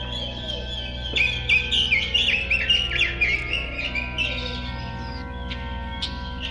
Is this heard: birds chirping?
yes

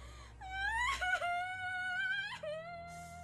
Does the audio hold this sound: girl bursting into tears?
yes

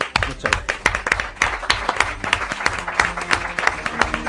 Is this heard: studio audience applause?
yes

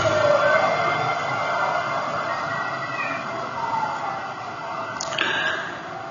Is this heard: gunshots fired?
no

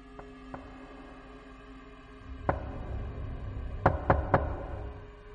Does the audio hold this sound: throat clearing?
no

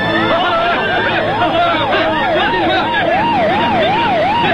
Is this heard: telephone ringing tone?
no

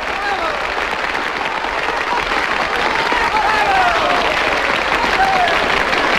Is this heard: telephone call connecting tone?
no

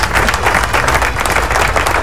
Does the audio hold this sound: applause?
yes

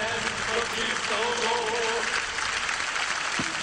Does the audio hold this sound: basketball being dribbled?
no

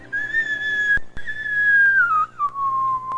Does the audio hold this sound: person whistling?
yes

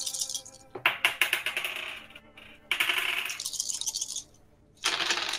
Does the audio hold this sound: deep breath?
no

